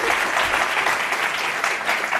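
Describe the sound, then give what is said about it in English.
Audience applause welcoming speakers at an event in the Bay Area: a steady wash of dense, vigorous clapping holding at an even level throughout. “let's just welcome them with a hand clap, and thank you all of you for being here as well.”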